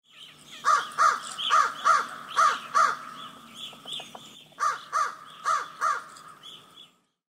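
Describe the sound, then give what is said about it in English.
A crow caws in harsh, nasal calls delivered in pairs. There are three pairs, a short pause, then two more pairs, ending in silence. “Falcon. Crow.”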